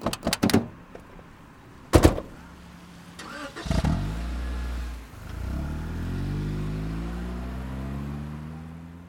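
A car drives off: a few sharp door thumps, then the engine starts and settles into a low running hum, its pitch climbing steadily as the car accelerates away.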